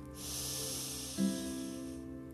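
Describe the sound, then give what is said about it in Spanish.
Deep inhale through the nose during a guided relaxation exercise, a soft steady airy hiss lasting about two seconds, with faint sustained tones underneath and a brief bump near the middle. “Toma aire, inhala.”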